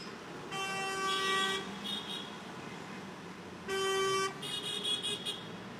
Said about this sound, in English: I like how, like, when the one car honks, the other car then honks after.